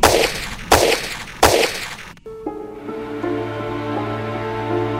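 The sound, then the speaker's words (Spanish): Gunfire aimed at people: three loud, sharp blasts spaced under a second apart, each with a short decay, followed by a sustained tonal, music-like sound. “¡Nos están disparando!”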